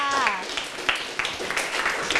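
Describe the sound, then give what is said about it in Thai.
Classroom applause for a group of students: a brief voice gives way to a few scattered, fairly faint claps that come irregularly through the rest of the moment. “เยี่ยมมากค่ะปรบมือให้เพื่อนค่ะ”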